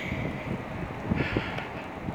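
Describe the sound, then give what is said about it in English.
Wind blowing across a microphone outdoors: a steady, rough low rumble with a few slightly stronger gusts and no voices. “I needed a little extra time away from this wind, away from the wind. I'm getting a lot of it right now.”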